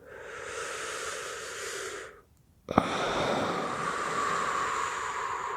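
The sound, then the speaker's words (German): Deep, slow breathing, with one long breathy airflow, a short silence, a brief click, then another long, steady breath. The breathing is alone, with no talk. “Tiefe Atemzüge.”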